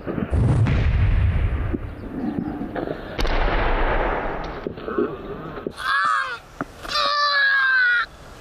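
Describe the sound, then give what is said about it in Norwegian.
Gunfire and explosions from a video game: dense, loud bursts of shooting and blasts that run almost without a break, followed by two wavering, tonal cries near the end. “Du må ikke skyte så hardt på de små.”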